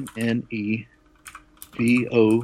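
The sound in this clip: Typing on a computer keyboard: faint, quick clicks come through in a brief pause between stretches of talk, and people speak over most of the sound.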